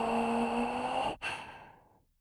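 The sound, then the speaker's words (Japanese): One slow, deep breath drawn in and let out as a soft, airy rush. A brief dip in level comes near the middle, and the exhale trails off quietly at the end. “深く息を吸って息を吐いて、”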